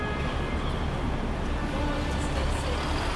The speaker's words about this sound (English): That's the sound of the Federal Street bus stop in Boston's Financial District with Jeffrey Gonski.